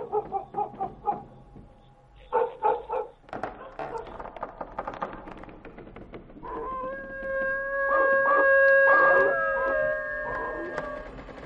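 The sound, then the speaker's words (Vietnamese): A neighbour's dog barks a few times in short bursts, then breaks into a long, wavering howl that holds steady and grows louder toward the end, with no voices over it. “Con chó nhà hàng xóm bấy giờ cứ chĩa sang bên này mà chu lên rồi cắn”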